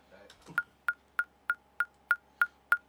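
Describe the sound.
Metronome click track set to 196 BPM: eight sharp, evenly spaced clicks ticking at a brisk steady pace, with a brief stretch of voice just before the first click.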